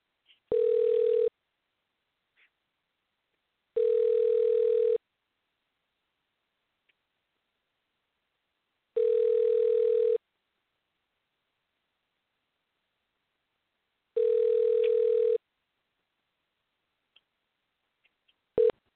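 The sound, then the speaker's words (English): Telephone ringing tone plays while placing a call to a state government office: four evenly spaced, mid-pitched beeps, each about a second long, separated by several seconds of silence with a few faint clicks. “I've got one number right now. I'm going to go ahead and dial it right now. Hopefully I can make contact with a human being.”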